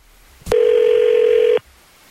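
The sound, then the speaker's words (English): A telephone places an outgoing call: a short click, then one loud, steady tone that holds for about a second and cuts off abruptly. “So hang tight. Calling her right now.”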